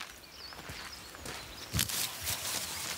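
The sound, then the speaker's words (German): Footsteps of a person walking down to join others during a bear hunt, a few fairly faint, irregular steps over a low background hiss. “Ich gehe jetzt runter zu den anderen.”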